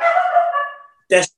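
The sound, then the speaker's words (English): A small dog gives a drawn-out, whining yelp that fades away, then one short, sharp bark after a brief pause. The sounds are fairly loud and there is no talking. “You can hear my little dog barking in the background.”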